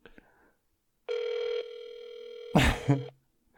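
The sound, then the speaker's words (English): Ringback tone on an outgoing telephone call: a single steady buzzing tone of about two seconds, louder at first, then softer, with a short burst of other noise near its end. The rest is mostly quiet. “I've called before and they haven't answered. But I'm hoping that they pick up this time.”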